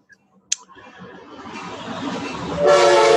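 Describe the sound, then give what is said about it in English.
A train passing: one sharp click, then a low rumble that steadily builds before a loud, sustained tonal blast like a horn. “Train.”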